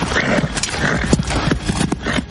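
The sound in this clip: Hooves of horses carrying mounted medieval knights regrouping on a meadow: irregular clip-clop of several animals, sharp hoof strikes scattered over a rumbling, steady background.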